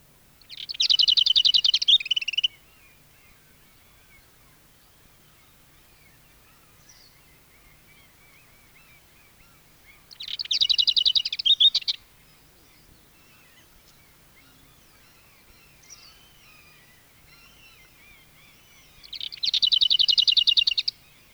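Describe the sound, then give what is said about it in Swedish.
Lesser whitethroat song: three short, bright rattling bursts spaced about nine seconds apart, each lasting roughly two seconds, with near silence between them. “Nu följer ärtsångare.”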